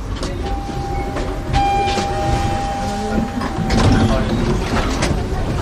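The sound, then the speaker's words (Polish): Tram ride back toward a city centre, with a loud continuous rumble and clatter of the rail car, a sustained whine running through most of it, and scattered knocks and rattles. “Ale my wracamy do miejsca, z którego przyjechaliśmy, ponownie tramwajem, do centrum.”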